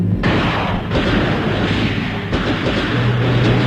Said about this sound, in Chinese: 话音未落，游击队轻机枪的子弹雨点般泻向敌寨，队员们散步水中一起猛打，敌人伏在船上还击。